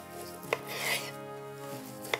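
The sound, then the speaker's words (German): A sharp knife slices a juicy, cooked pork chop on the bone. It makes faint scraping strokes, with two sharp clicks of the blade over a low, steady hum. “Den lasse ich dran und ich schneide es jetzt einfach mal so schön auf mit einem scharfen Messer.”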